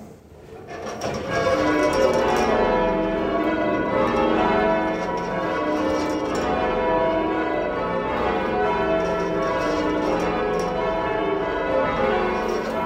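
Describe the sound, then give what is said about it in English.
Church bells ring in change ringing, the odd-numbered bells and then the even-numbered bells in turn. Overlapping resonant strikes blend into a steady, full peal that holds an even loudness throughout, with no voices. “odd-numbered bells, and then the even-numbered bells. And the lore behind that is that it was the method that they rang at the coronation of Queen Elizabeth I.”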